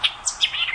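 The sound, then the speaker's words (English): A white-eyed vireo sings a quick, bright run of high chirps and short whistled notes, several in under a second, clear and alone. “That's the song of the white-eyed vireo.”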